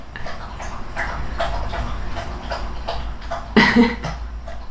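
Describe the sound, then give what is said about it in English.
A dog lapping water in quick, steady rhythm, many short wet splashy laps repeating about twice a second, with one louder, messier gulp near the end. “if you're wondering what that noise is, that's our dog, Cola, drinking water.”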